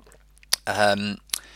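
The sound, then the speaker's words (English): A single slurping sip of decaf Nespresso coffee, with soft lip and mouth clicks before and after a drawn-out, breathy draw of liquid. “Sip on my decaf Nespresso there.”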